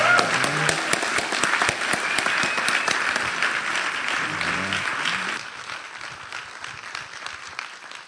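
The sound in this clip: Audience applause welcomes a speaker at a service celebrating the life of Dr. King. Dense, sustained clapping fills the first five seconds, then thins to a quieter patter that trails off.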